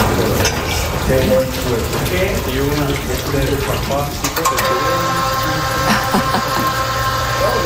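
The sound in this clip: Running water and the mechanical noise of an aerial work platform during monthly maintenance of a wall: a steady rush of flowing water joined by a continuous mechanical drone with a tonal hum, clearer in the second half.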